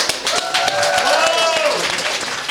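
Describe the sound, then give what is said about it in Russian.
An audience claps at a live show. Sharp individual claps mix with steady applause, and voices are heard over it. “Обожаю! Похлопаем!”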